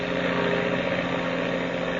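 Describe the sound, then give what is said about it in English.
An aeroplane engine runs with the throttle opened wide, giving a steady, even, mid-pitched drone that holds at a constant level. “I'm opening this throttle wide”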